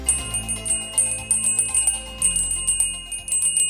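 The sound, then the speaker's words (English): A Salvation Army red kettle bell rings in a quick, steady rhythm, many bright metallic strokes repeating in bursts with short pauses between them. “That's the sound of the Salvation Army red kettlebells.”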